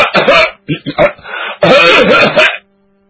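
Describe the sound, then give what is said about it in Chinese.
A voice imitates loud, rough throat-clearing and coughing in several quick bursts, sounding like a habitual announcement of someone arriving home, followed by a brief silence. “他得咳嗽几声，跟家里人先打个招呼”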